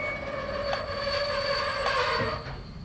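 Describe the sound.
A train pulling into a station platform, with high, sustained squealing tones from the wheels over a steady rumbling roar that eases slightly near the end.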